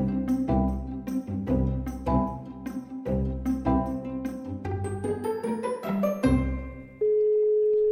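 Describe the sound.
A telephone ringing tone sets in near the end, a steady single-pitch beep that follows a stretch of melodic, chime-like music.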